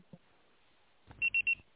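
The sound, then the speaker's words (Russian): A phone voicemail system gives three short, high-pitched beeps in quick succession to mark the start of message recording, after a stretch of near silence. The beeps are clear but quiet. “Ваш звонок был переадресован на голосовой почтовый ящик. Можете оставить сообщение после сигнала.”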